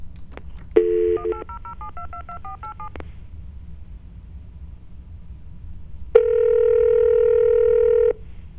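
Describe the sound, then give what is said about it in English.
Telephone keypad tones sound as a call is dialed: a quick run of short beeps of varying pitch, then several seconds of quiet, then one long, steady electronic tone lasting about two seconds. “Let's call 1-800-RABBITS. 1-800-RABBITS. Here we go. 1-800-RABBITS.”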